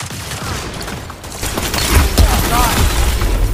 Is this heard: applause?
no

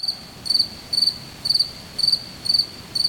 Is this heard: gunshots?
no

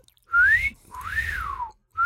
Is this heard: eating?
no

